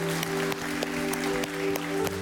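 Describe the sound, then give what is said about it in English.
A church audience claps after a service prayer, faint scattered claps over steady sustained tones. “Let's clap for those that received Jesus this morning.”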